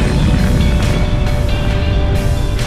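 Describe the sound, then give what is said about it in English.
Rocket liftoff on a first launch: a loud, unbroken roar with a heavy low rumble and a broad hiss that holds steady throughout. “4, 3, 2, 1, liftoff.”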